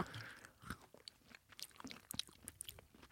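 Crunchy crackle chocolate being chewed: many quiet, irregular crisp crunches and clicks of biting and chewing, with no talk.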